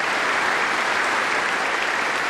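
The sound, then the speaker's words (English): Thunderous applause rises from thousands of gathered faithful outside a Gothic cathedral as Pope Benedict signs the city's Golden Book. The clapping forms a dense, unbroken roar at an even loudness throughout. “amid the thunderous applause and cheering of the gathered faithful in their thousands and thousands,”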